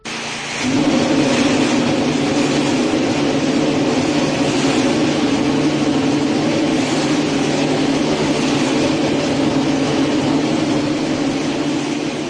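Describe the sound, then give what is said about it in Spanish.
A Ferrari Formula 1 car engine fires up after being fitted to the car and then runs as a loud, steady, droning roar with a low rumble, holding an even level alone. “Esta semana han arrancado, por su parte, el motor de Ferrari. Ferraristas, tendréis que aguzar menos el oído porque Ferrari lo ha puesto a todo volumen.”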